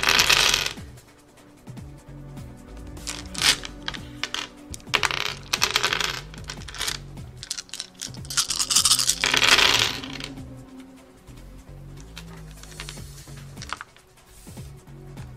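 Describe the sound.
A handful of dice rattling and clattering, rolled from a set of ten, with loud tumbling bursts at the start and through the middle before the clatter thins out and fades.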